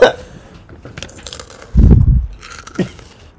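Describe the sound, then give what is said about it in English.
Crunchy pretzels being eaten: a few sharp, crackling bites and crunches, with the loudest burst of crunching near the middle and a shorter crunch after it. No talking is heard. “Eat those pretzels, baby. Ooh, this is an ASMR podcast.”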